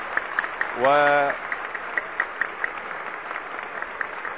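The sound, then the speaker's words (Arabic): A concert audience bursts into applause to greet Umm Kulthum at a Qasr el-Nil cinema concert. The clapping is a steady crackling patter throughout, with a brief tonal sound standing out early on. “ويقابل جمهور الحاضرين هنا كوكب الشرق بهذه العاصفة من التصفيق وهذه التحية”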